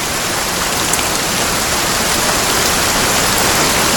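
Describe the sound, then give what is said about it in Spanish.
Steady, heavy rain: a dense, even hiss that holds at one level throughout, with no voices. “Lluvia. Lluvia.”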